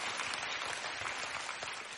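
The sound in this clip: An audience claps during a preacher's talk. Many hands make a steady, even wash of applause that stays fairly faint and unbroken, with no voices over it.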